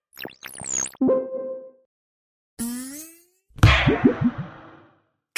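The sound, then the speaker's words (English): Cartoon-style effect of a head clanging against a football goalpost as a goalkeeper dives for a save. A sharp, ringing metallic-sounding hit sits among whooshing sweeps, a rising slide and a loud, crashing burst near the end. “clang! He bangs his head on the goalpost.”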